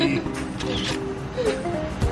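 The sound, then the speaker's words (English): A phone camera shutter clicks as a group selfie is taken over breakfast, with brief, faint clicks set beneath people talking. “In true me fashion, we need to take a selfie. So yes. If you don't mind, yes. We're gonna get in here. All right. Say meaty. Meaty.”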